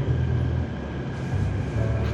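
Steady low rumble inside a crowded moving train carriage, a continuous dull drone with slight swells in loudness and no distinct separate events.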